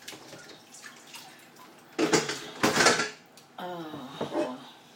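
Dishes are washed by hand in a kitchen sink, with a few loud bursts of clattering crockery and clinking cutlery between quieter moments, then water splashing and sloshing.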